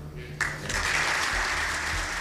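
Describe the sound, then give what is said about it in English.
Applause and cheering break out from the Fianna Fáil backbenches in the Dáil for a departing leader, starting abruptly after a brief hush and continuing as a dense, sustained wash of clapping. “There's a tumultuous cheer in the Dáil from the Fianna Fáil backbenches.”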